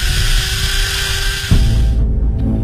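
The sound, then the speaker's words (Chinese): Electric drill boring into a person's belly in a dramatized scene, a loud, steady whining drone whose tone drops and thickens partway through as it bites in. “电钻慢慢的挺进，对着沈千芳的肚子扎了下去。”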